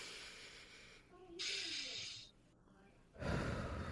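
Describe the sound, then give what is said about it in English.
Deep breathing in a relaxation exercise: a strong, airy inhale, a quiet pause, then a forceful breathy release, each lasting under a second. “So I'm gonna do my next four fingers with y'all. So I'm gonna breathe in.”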